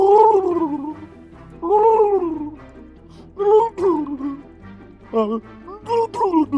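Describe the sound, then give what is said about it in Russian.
A man slurps water while crying and trying to talk at the same time, making wet gargling gurgles mixed with a whimpering, sobbing voice in several uneven bursts separated by short pauses. “Сейчас нужно отхлебывать, плакать и при этом еще говорить. Давай попробуй.”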